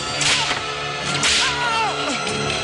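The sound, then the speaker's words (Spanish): Sharp whip lashes as a guard strikes an old slave at an ancient Egyptian building site: a few loud, crisp cracks over sustained tonal sounds, with the strongest strokes near the start and in the middle. “Un guardia golpea a un esclavo anciano.”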